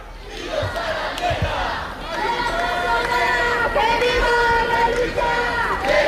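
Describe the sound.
Protest crowd chanting outside Spain's Congress of Deputies on Carrera de San Jerónimo in Madrid, at a gathering paying tribute to a dead activist; many voices chant loud, rhythmic slogans in unison, continuous and rising slightly in force.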